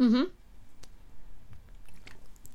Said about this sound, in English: Why did you stop while I drank water? Because I wanted that sound in there.